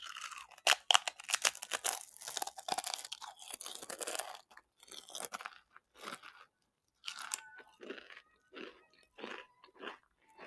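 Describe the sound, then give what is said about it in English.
Two chips eaten at once give crisp, crackling crunches that start dense and rapid, then thin into sparser chewing bites with short pauses, with no talking. “now I'm gonna eat two chips at the same time. We'll see how different that sounds.”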